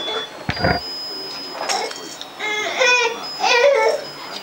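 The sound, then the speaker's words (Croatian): Crying in short, whimpering bursts, thin and wavering, rising into louder sobbing cries toward the end, with pauses between the episodes. “Ko plače?”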